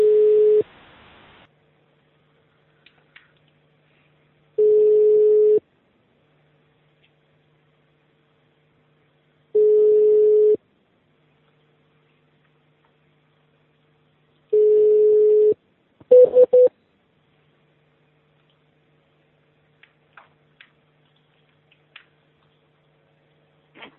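Telephone line tones sound on a call: four long, steady ringback beeps about five seconds apart, then a short burst of different tones and a few faint clicks over near-silence.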